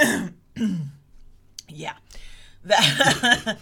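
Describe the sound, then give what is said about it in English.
A person with something stuck in their throat clears it and coughs: a few rough, raspy bursts separated by short pauses, then a longer, louder cluster of throaty hacking at the end. “I have a yucky in my throat and I want to cough, but not into the microphone. So I coughed at you.”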